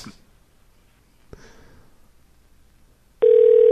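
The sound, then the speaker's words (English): A phone call is placed on a three-way line. After a couple of faint clicks, a loud, steady ringing tone starts near the end and holds without a break. “Oh, hold on. I'm dialing him up. Here we go.”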